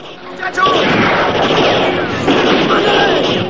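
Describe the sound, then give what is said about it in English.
Gunshot fired from a wall: a sudden loud blast, then heavy, sustained rumbling noise that swells again partway through. “One of Ira's men is shot from the wall.”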